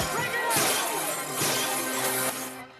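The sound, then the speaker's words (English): Glass shattering and crashing as police smash glasses behind a club bar with batons during a raid, a dense, continuous clatter of breaking glass and impacts with a couple of louder bursts. “the police raid the club, overturning the gambling tables and smashing the glasses behind the bar with their batons”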